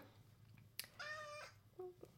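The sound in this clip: A cat meows: one drawn-out, tonal meow followed by a shorter second one, both fairly faint against a quiet background.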